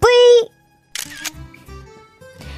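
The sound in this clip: A quick camera shutter click snaps right after a short shrill yelp, followed by a few soft low thumps.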